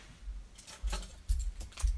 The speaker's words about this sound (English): I need to find my keys.